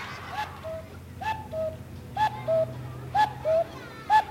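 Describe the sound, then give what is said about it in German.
Whistled imitation of an owl call: a few short, clear, mid-pitched hoots, mostly in pairs and moderately loud, over a low steady background hum. “Was ist das? Eine Eule, ja, gut, ja, oder?”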